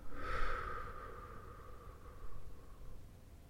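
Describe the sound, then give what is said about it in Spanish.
Deep diaphragmatic breathing, in through the nose and out through the mouth: soft, airy breath sounds with a fuller breath at the start and a fainter one later. “Y comienza tomando tres respiraciones profundas, diafragmáticas. Inhalando por la nariz y exhalando por la boca.”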